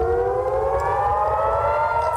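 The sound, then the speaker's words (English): Civil defense sirens wail at night in northern Israel, a loud, sustained, layered tone that climbs slowly in pitch and holds steady throughout, without any voices. “Sirens piercing the night”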